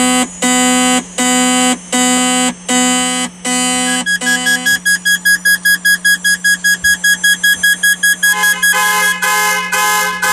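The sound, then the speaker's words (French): Fire station alarm heard over a telephone line: five loud, long buzzing tones, then a faster run of many short, sharp beeps that continues to the end. “vous allez entendre une alarme au téléphone. C'est une alarme directement dans la caserne.”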